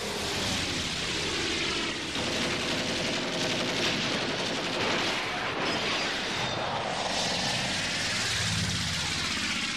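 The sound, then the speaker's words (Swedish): A propeller aircraft engine drones loudly and steadily with a rough, buzzing texture, holding a fairly even level throughout. “Du träffade inte, det var motorn som skar för mig!”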